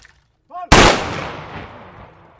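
A ceremonial honour guard fires a rifle volley, heard as one loud, sharp crack of near-simultaneous shots that rings out and decays over about a second and a half, just after a brief shouted command.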